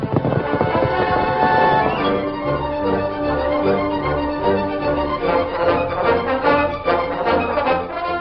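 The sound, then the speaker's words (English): Galloping horse hoofbeats as a rider pushes a horse at top speed along a stage trail at twilight, a loud, steady, driving rhythm that continues throughout. “The Lone Ranger rode at top speed in the gathering twilight”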